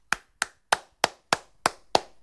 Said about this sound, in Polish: Zastanawiam się, czy są jakieś prawidła klaskania, jakieś normy, zasady, czy takimi łódeczkami klaskać i wtedy dźwięk jest taki głośniejszy, czy tak bardziej płasko,